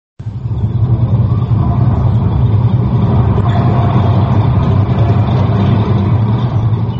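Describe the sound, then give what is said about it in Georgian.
A tank rumbling forward in a war film, a loud, heavy low-pitched engine drone that starts abruptly and rolls on steadily without a break for about seven seconds. “კადრში ჩანს აბრძოლო მანქანა, რომელიც ბრუხუნით მიიწევს წინ.”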